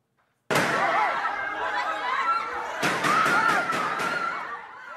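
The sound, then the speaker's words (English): Gunshots in the Philippines Senate: an abrupt loud blast gives way to sustained rumbling noise, then a rapid series of further sharp cracks before the sound dies away. “Gunshots have rung out in the Philippines Senate, where a top politician who's wanted by the International Criminal Court has been holed up since Monday.”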